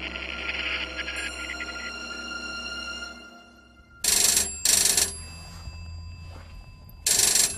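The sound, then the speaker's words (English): An office telephone bell rings in loud, short bursts: two rings close together, a pause of about two seconds, then a third ring, over a steady low hum. “That's my phone.”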